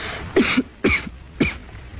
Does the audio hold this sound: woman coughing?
yes